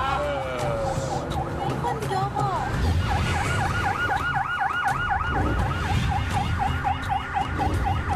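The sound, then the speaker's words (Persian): A police siren sounds from an officer's car behind, a loud, continuous warbling wail whose pitch swings quickly up and down over steady road and engine noise. “وقتی مامور پشت به آژیر می‌کشه متوجه نمی‌شی؟ صدای آژیر واسه گوش ما عادی شده.”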